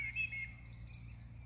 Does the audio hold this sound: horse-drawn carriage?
no